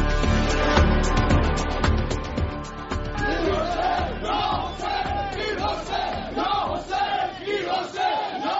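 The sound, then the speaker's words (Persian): Supporters of Iran's 2009 protests chant together at the edge of a memorial service for Mohammad Khatami's sister in Tehran, a loud crowd shouting rhythmic, repeated slogans in unison with sustained voices. “این صدای عده‌ای از حامیان اعتراض‌های سال 1388 ایران است در حاشیه مراسم ختم خواهر محمد خاتمی، رئیس جمهوری اسبق ایران، در هفته گذشته در تهران.”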